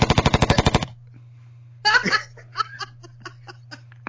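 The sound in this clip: A rapid string of sharp, gunfire-like pulses rattles out in under a second. After a short pause, people burst into laughter.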